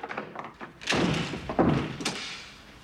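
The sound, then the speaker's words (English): A large bolt is turned on an apartment's front door and the inside doors are locked, producing a few solid thunks and clunks with short gaps between them. “He turns it, then quickly locks the other inside doors.”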